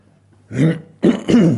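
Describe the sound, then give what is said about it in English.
A speaker at a church service clears their throat in a few rough, gravelly bursts, loud and with no words between them. “It's funny, whenever you do public speaking, I don't know, your throat seems to dry up and...”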